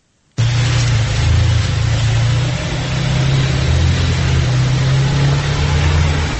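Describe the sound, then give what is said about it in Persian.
Taxi wheels spin and the engine strains as the car sits stuck in snow on a side street in Dushanbe while passengers push. A loud, continuous whirring roar runs throughout over a droning, wavering low engine tone. “این صدای لغزش چرخ تاکسی است که در کوچه تونسی شهر دوشنبه درمانده است و چند نفر مسافر آن را تله میکنند.”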